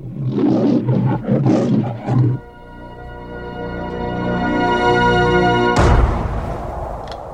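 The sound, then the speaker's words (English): Spooky trailer for the movie Poltergeist III: loud roaring growls give way to a sustained, eerie droning tone that slowly swells before a sudden harsh burst near the end. “Well, why don't we take a listen to this spooky trailer?”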